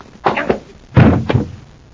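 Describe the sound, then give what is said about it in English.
Punches land in a fistfight, including a left hook: two dull, heavy thumps about three quarters of a second apart, loud and alone. “What a neat left hook.”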